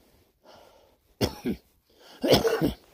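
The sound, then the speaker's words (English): A climber's nasty, hoarse cough on a high-altitude summit day, caused by breathing frigid polar air. After a faint breath come a few harsh, rasping coughs in two bursts, heard alone with no talk. “got a nasty little cough”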